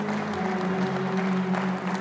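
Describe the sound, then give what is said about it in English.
A church audience claps hands together in a steady, dense wash of applause at the end of a service, with held musical tones underneath. “Give the Lord a hand clap this morning.”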